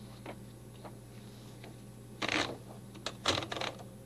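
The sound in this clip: A sheet of paper is fed into a typewriter: quiet clicking and ratcheting bursts in a few clustered groups during the second half, over a faint, low, steady hum.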